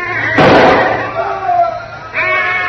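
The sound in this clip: A rifle gunshot fired across a pasture: a single loud, sharp blast with a short decaying tail, followed by a voice.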